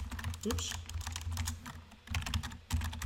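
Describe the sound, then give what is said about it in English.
Quick typing on a computer keyboard as a local search for a plumber is entered: dense, irregular clicks that pause briefly near the middle and then resume. “So let's just type in Sandy,”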